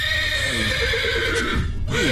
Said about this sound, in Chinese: 我来看看这个咬人的马。